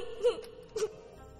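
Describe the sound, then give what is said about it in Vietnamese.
A boy crying as he sits beside a banyan tree until dark: two short, wavering wails or sobs, the second following about half a second after the first, fairly faint and alone without speech. “Chú ngồi đó mà khóc cho đến khi trời tối mới từ giã cây đa mà vào trong.”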